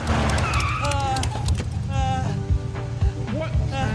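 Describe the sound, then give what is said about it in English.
A shiny red truck skids to a stop, its tires letting out a harsh, wavering squeal over a broad, rumbling roar that holds steady, then thins out toward the end. “A shiny red truck skids up.”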